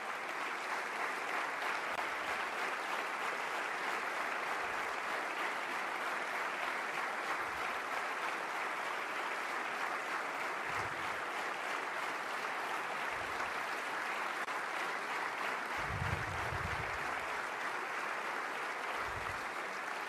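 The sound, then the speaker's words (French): A standing ovation fills the National Assembly during a memorial tribute. Many hands clap in a sustained, even roar that stays level throughout, with occasional low thumps. “Vous voyez l'Assemblée nationale, standing ovation pour Patricia Galerno en sa mémoire.”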